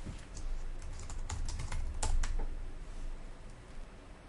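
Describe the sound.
Quick, irregular typing on a computer keyboard while someone writes code, with many soft keystrokes clicking in uneven bursts. It stays fairly quiet throughout.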